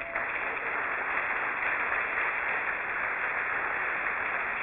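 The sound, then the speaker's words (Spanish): A church audience applauds in praise of God: a steady, even wash of many hands clapping that continues without a break. “Denle un aplauso a Dios.”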